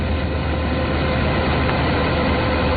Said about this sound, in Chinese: 走进山西大同市云冈区西坎岭乡泰善村，连片玉米田里满目金黄，收割机正开足马力作业，转运车辆紧随其后，将刚收获的玉米及时运往收储点。